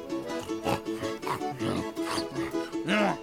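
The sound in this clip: A wild boar grunts in a string of rough, low, snorting bursts in an uneven rhythm, with a louder, deeper grunt near the end.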